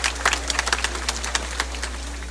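A round of applause from an audience comes as sparse, uneven claps that thin out after the first moments, over a steady low hum.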